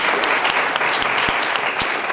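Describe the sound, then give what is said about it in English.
Audience applause at a live forum: a dense, continuous wash of many hands clapping at steady loudness, with a few sharper individual claps standing out. “give a round of applause to our special guests, Dr. Michelle Morales, Dr. Gary Harper, and Dr. David Halpern for coming today.”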